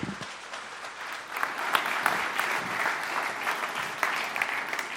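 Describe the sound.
Audience applause welcomes a guest speaker at a church gathering, dense, steady clapping of many hands at even loudness throughout.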